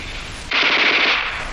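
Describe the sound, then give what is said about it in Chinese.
Japanese Type 11 light machine gun firing: a dense, rapid burst of crackling shots cuts in abruptly after a moment of background noise and runs continuously. Loud, with no talk. “你听啊，那小歪把子声音多脆呀”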